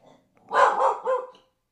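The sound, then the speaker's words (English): A pet guard dog barks, two quick, sharp barks in close succession, fairly loud against a quiet background. “That's my dog, Bebop. He's a guard dog.”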